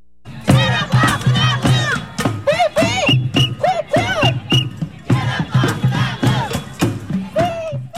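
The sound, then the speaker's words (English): Striking teachers chant in unison on a picket at Cleveland High School in Portland, a loud rhythmic group chant of repeated short phrases that continues steadily throughout with crowd voices. “That's the sound of teachers striking at Cleveland High School, saying they're stronger and more powerful than ever, and declaring, when we fight, we win.”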